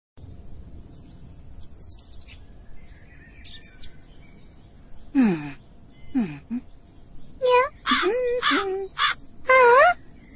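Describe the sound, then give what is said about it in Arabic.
Crow cawing: several harsh calls that drop in pitch, the first two spaced apart and the later ones coming in quicker bursts, heard alone over faint background hiss. “إنه غراب.”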